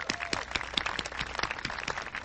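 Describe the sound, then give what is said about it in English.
Audience applause for elected city council members at a civic gathering in Kirkland, a quiet, even patter of many hands with individual claps distinct, sustained to the end. “Let's give them a hand.”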